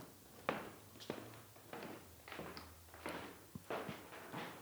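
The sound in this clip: Footsteps cross wooden floorboards, a faint, fairly steady series of soft knocking steps with no voices over them.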